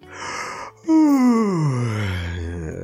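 A person yawns on waking in bed and stretching on a spring morning: a breathy intake, then a long, loud voiced yawn whose pitch slides steadily downward and trails off.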